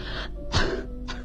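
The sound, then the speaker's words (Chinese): Three short, harsh coughs in a row, fairly loud and evenly spaced, with nothing else over them. “海伦不停地咳嗽着，我翻来覆去的睡不着。”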